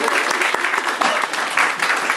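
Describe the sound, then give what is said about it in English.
Audience applause at a lecture, a dense wash of many hands clapping that stays loud and steady for the whole stretch, with slight flickers in intensity. “Everyone round of applause.”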